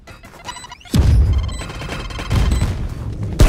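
Heavy explosions from a grenade in the video game Valorant, with a few loud, booming bursts separated by short gaps, each followed by a rumbling decay.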